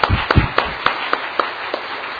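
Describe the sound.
Church audience clapping in praise after a couple's testimony and a pastor's message: several distinct, muffled claps that start heavier, then thin out and fade to sparse single hits.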